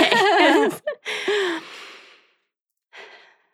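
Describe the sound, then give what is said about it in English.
A deep breath taken by a nervous speaker before a hard talk between friends: a voiced sigh, then a long breathy exhale that fades out, and after a short pause, one fainter breath. “why don't we just start with a deep breath?”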